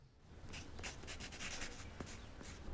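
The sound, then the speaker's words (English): A pencil glides over paper, drawing a curved line in several soft, scratchy strokes with a faint, dry rasp throughout. “A hand guides a pencil over the paper, drawing a curved line.”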